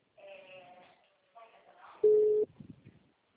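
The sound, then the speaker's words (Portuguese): Electronic tones sound as a telephone line goes on hold: a few faint warbling pitched tones, then a loud steady beep lasting under half a second, followed by brief crackly bursts. “eu acho que é o telefone dela que está entrando em espera.”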